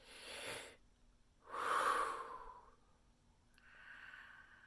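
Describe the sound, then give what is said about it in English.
A deep breath taken during a guided healing meditation: slow, breathy rushes of air, the middle one loudest and longest, with a softer, thinner breath at the end and no talking. “Forgiveness for taking on that belief and limiting your potential. Deep breath.”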